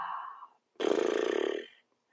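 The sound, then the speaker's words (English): A loud, rough, voiced exhale released during a group breathwork exercise. It comes as one sustained breathy groan lasting about a second, after a softer, steadier vocal tone. “on the count of three, we're going to just let out a sound. It could be any sound. On your next exhale, one, two, three.”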